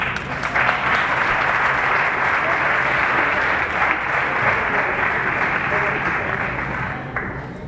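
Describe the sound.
Loud audience applause welcoming a charity vice president as presenter at a morning scholarship event: thick, sustained clapping from a large crowd that holds steady for about seven seconds before tailing off.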